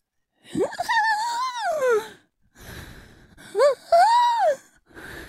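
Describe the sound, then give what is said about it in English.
A voice imitates the laboured, wheezing breathing of diphtheria as heard through a stethoscope. It makes a few strained, whining breaths whose pitch wavers up and down, with short pauses between them. “And at this point, it might be getting kind of hard for you to breathe. So if you finally were to go to the doctor and they put a stethoscope up to you, they'd hear a sound something like this.”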